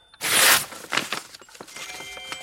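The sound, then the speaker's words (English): A sealed paper envelope is torn open: a loud, broad ripping burst comes first, followed by several softer crinkling rustles of paper. “some sealed envelopes. What? This one has my name on it. A love letter, no doubt. Open it.”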